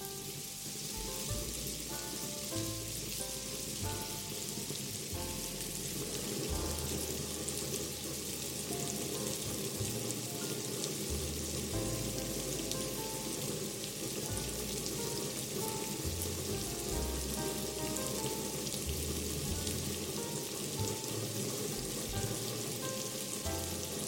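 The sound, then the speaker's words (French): Pears sizzle in a pan as they are stirred and begin to brown, a steady dense crackle of frying with soft, irregular low scraping and knocking from the stirring throughout. “Je remue. J'ai mes poires qui commencent à colorer un peu.”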